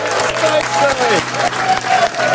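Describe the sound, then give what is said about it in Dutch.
Applause from an audience, a dense, steady wash of clapping that stays loud and even from start to finish. “dames en heren, met een grote applaus”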